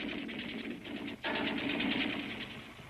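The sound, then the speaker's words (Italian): Rapid machine-gun fire in a war film scene with German troops still shooting: a dense, unbroken rattle of fast shots that cuts out for a moment partway through, then resumes just as thick and loud. “Ma non potreste avvertire i tedeschi che stanno continuando a sparare.”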